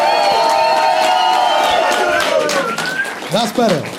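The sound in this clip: Crowd cheering and whooping loudly for Allen Iverson's entrance at a live interview event in London, a dense, steady roar of voices that holds throughout.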